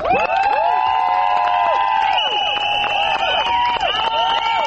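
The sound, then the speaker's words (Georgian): A crowd of women shouting and chanting at a protest in front of parliament, with high, sustained voices overlapping and a few scattered claps beneath the loud, continuous chorus. “აი ასეთი შეძახილების და სასწვენების ხმის ფონზე მოითხოვდნენ პარლამენტის წინ შეკრებილი ქალების საკუთარი უფლებების დაცვას.”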